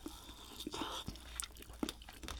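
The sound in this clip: Quiet chewing of fried tofu (aburaage), soft moist bites and small crunches repeating irregularly at low volume.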